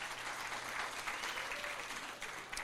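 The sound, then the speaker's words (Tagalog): Sustained applause from an audience during a sermon at a worship service: a dense, steady wash of clapping that holds at an even loudness for the whole stretch, with no talk over it. “Palakpakan naman natin si Lord po dyan.”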